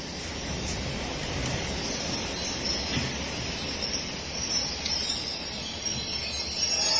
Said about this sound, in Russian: Экстренный поезд привез в цистернах морскую воду для саламандровых делегатов.